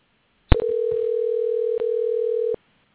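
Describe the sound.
Ringback tone of an outgoing telephone call: a short click, then one steady mid-pitched electronic tone lasting about two seconds before silence.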